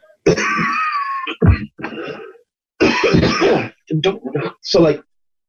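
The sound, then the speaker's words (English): A person coughing and clearing their throat: a few rough, throaty bursts separated by short pauses, mixed with voice-like sounds. “I'm hoping this is a pot smoker's cough and not a COVID cough”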